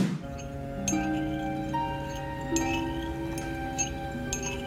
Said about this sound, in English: all of a sudden, the teacup gets stirred.